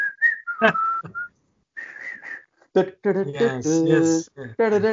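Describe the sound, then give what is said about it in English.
A person whistles a song's melody in short, clear, high phrases, broken by pauses and stretches of voiced sound that suggest singing or humming along with the whistled tune. “And then there's a very, very delightful whistling tune to it.”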